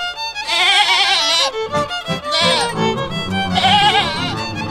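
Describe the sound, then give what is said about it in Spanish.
Goats bleating on an organic goat-raising farm in Santiago del Estero, Argentina: several loud, wavering, nasal bleats in overlapping bursts, with brief gaps between calls. “Llega Incupo y nos habla de la cría de cabras, pero estas cabras se crían de una forma un poco distinta.”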